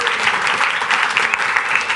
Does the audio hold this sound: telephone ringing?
no

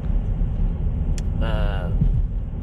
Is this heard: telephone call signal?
no

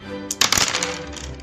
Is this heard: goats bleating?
no

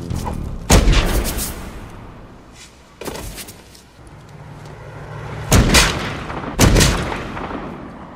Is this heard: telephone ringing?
no

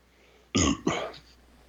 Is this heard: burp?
yes

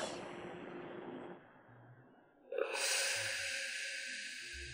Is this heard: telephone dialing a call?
no

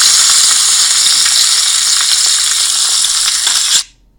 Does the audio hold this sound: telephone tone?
no

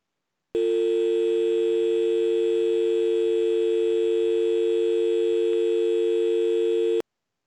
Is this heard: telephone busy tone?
yes

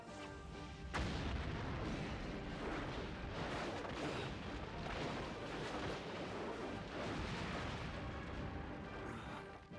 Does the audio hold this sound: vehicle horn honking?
no

